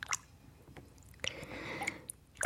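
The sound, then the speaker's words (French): Quiet sloshing and dripping as hands move under water in a kitchen sink: a few brief, soft wet squishes, then a longer swirl of water. “penchée sur l'évier, les bras dans l'eau jusqu'au coude. Je tiens quelque chose sous l'eau.”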